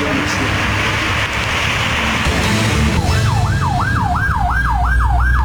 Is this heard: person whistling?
no